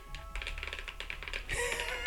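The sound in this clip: Faint, quick clicking keystrokes from typing on a laptop keyboard in a rapid, uneven run of taps.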